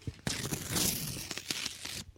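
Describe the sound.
An envelope tears open with a long rasping rip of paper and crinkling, ending in a few sharper crackles.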